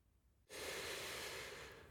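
A deep breath is drawn in while taking in a wide view over a city: a long, steady, airy inhale lasting well over a second that starts abruptly after near silence and holds at an even, fairly loud level.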